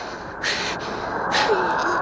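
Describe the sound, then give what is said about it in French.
Wind gusts blowing in two broad, breathy whooshes that swell and fade against a steady airy hiss. “Oh, il souffle.”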